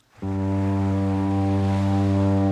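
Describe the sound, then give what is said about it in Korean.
A passenger ferry's long horn sounds at an island village. It is a deep, steady blast with rich harmonics that begins abruptly and holds without a break. “섬마을에 울려 퍼지는 여객선의 긴 고동소리는 남녀노소 할 것 없이 모두의 마음을 설레게 만들죠.”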